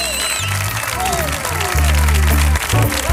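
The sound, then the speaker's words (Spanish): A studio audience at a live comedy show applauds and cheers loudly in a short, dense burst of clapping with voices mixed in. “Hoy tenemos un publicazo que suena así de potente. ¿Ve cómo suena este público de hoy?”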